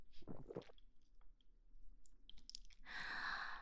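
Wet chewing sound effect of a predator chewing on legs, with quiet, irregular squishy bites and smacks that end in a longer, rougher crunching burst. No voices.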